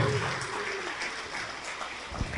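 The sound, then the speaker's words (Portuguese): An audience applauding at a church service, a dense, steady wash of clapping that runs without pause. “Vamos aplaudir mais, porque tem mais gente escapando. Tem mais gente escapando, vamos aplaudir mais.”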